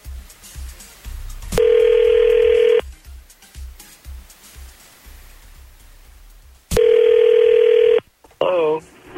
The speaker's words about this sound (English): So, Catherine, with your permission, we're going to call Austin and see what's up.